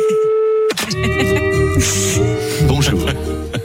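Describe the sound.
A steady telephone tone sounds as a call is placed for a radio segment. After less than a second it cuts to a busy, loud mix of tones and voice-like sounds as the line connects.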